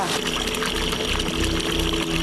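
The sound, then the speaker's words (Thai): Water flows by gravity, without a pump, through an irrigation channel in rice terraces fed from Doi Inthanon. It makes a steady, even rushing that carries on without break for the whole stretch. “เราใช้ระบบจากที่สูงลงที่ต่ำเราไม่ใช้เครื่องสูบน้ำถ้าเราอยากได้เราก็ไปเปิดถ้าเราไม่อยากได้ก็ปิดได้เลยตรงนี้สามารถปิดได้เลยถ้าเราไม่ต้องการใช้ใช่คือส่วนที่เราไม่ต้องการคือมันก็ไหลผ่านโซนอื่น”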